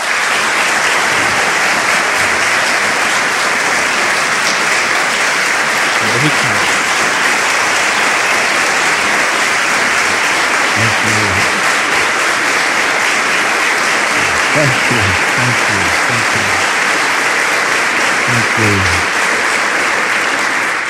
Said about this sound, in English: I am always intimidated when I get a standing ovation at the beginning of a talk.